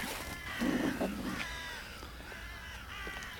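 Ravens caw faintly, a few hoarse calls with one slightly louder cluster early on, over a low, steady background.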